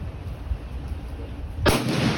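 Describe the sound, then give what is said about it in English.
A single rifle shot fired by a first-time shooter outdoors in a state park, a sudden loud sharp report near the end that breaks a steady low background hiss. “this piece does include the sound of a rifle firing”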